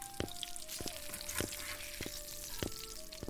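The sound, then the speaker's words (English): Onions frying and caramelizing in a pan give a faint, continuous sizzle broken by a few sharp crackles and pops, with a steady held tone underneath. “I told you to caramelize the onions.”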